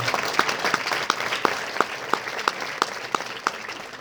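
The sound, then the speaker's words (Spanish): Audience applause for translators at an event, with many crisp individual claps standing out at a steady, rhythmic pace above a continuous wash of clapping. “I want a big applause for them.”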